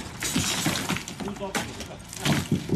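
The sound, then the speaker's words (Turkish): A sledgehammer smashes poor-quality concrete beams and columns during a building demolition, giving repeated crunching, shattering crashes while a voice talks. “Balyozla vurduğun yerde ana kiriş, taşıyıcı kolonlar hepsi tuzla buz oluyor.”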